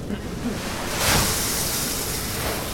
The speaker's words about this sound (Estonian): nii, ma allan nüüd natuke siia vilja sisse.